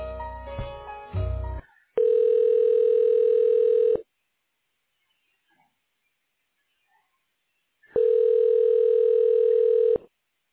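Telephone ringback tone while a call is being transferred: two long, steady, mid-pitched rings, each about two seconds, separated by a stretch of near silence.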